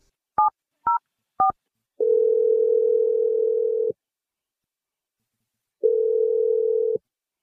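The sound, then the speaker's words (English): A telephone dials a number: three short, clipped touch-tone beeps, then two long, steady, mid-pitched ringing tones separated by a pause of silence. “Here we go. Dialing your number right now.”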